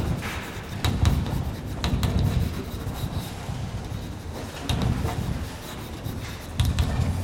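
Handwriting scratches and rubs across a surface in a lecture setting. Faint, uneven strokes recur a few times over a constant low noise floor.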